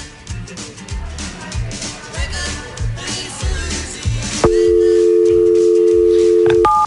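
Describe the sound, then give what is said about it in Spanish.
A telephone dial tone sets in partway through as a loud, steady, continuous hum over a noisy background, then gives way to a brief higher tone as a telephone number is dialed. “Ahí está marcando”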